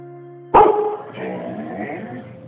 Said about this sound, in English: That sound you hear is our family dog, Phoebe